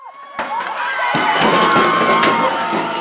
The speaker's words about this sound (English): That's the sound of the pioneer statue being pulled down with ropes from the pedestal where he stood in a central location on campus since 1919.